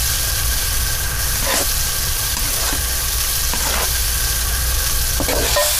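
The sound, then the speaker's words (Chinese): Battered fish pieces stir-fry in hot oil with a loud, steady sizzle and hiss, broken by a few brief scrapes of stirring through the pan. “高度的油温令鱼侧表面的淡粉浆迅速变得酥脆，简单翻炒即可赋予鱼侧外酥里嫩、劲道弹韧的口感”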